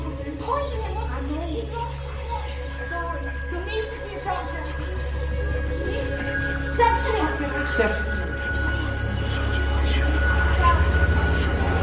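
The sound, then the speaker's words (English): An aircraft crosses the early morning sky with a steady, low droning rumble that holds throughout and slowly grows louder toward the end. “An aircraft crosses the early morning sky.”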